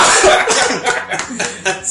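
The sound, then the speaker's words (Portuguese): A person coughs in a harsh, loud fit of several rapid, raspy bursts, following one another irregularly over about two seconds. “Opa! Tosse, velho!”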